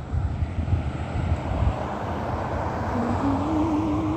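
Aircraft flying overhead above a museum near Ontario International Airport: a loud, steady low engine drone with a broad roar. A whining tone emerges near the end and climbs slightly in pitch.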